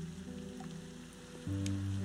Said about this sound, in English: all you can hear now is the rain